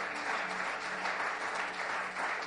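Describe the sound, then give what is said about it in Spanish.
Applause for the Lord from an audience during a church service: a dense, steady patter of many hands clapping alone, fairly soft and even throughout. “Alguien debería darle un aplauso al Señor y mostrar ese ánimo.”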